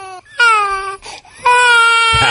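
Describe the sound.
Hungry infants crying: loud, high, strongly tonal wails, a short cry first and then two long sustained cries separated by brief breathy gaps.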